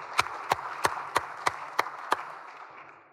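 Clapping welcomes a guest to the Senate chamber: seven sharp, evenly spaced claps in a steady rhythm, then a fading quiet.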